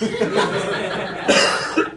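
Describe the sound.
A sharp cough bursts out amid chuckling and a murmur of voices, followed by a brief second burst.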